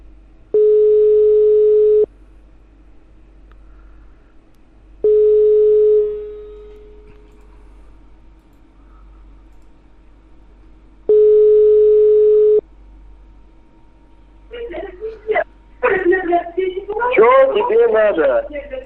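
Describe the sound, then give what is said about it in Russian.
Telephone line tones while a call is redialed: three long, steady buzzing beeps of about two seconds each, separated by longer silent gaps, followed by a voice talking at the end. “Я еще раз набираю.”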